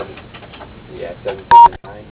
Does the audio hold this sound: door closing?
no

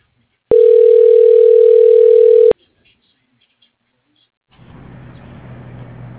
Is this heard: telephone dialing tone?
yes

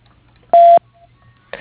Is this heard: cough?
no

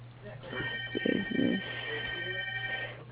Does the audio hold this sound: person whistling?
no

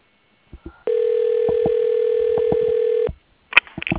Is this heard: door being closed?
no

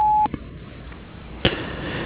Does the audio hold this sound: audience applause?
no

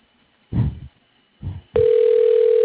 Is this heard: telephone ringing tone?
yes

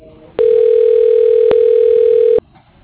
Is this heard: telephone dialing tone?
yes

